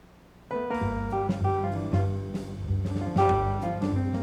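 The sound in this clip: Jazz ensemble playing a newer version of a blues-based tune. The music enters after half a second of near-silence, with punchy rhythmic attacks, layered melodic lines and a steady low bass, and no voices.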